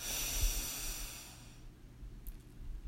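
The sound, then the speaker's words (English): A soft, airy breath during a guided breathing exercise, a faint hissing rush that lasts about a second and a half and then fades into quiet. “So let's breathe in and out.”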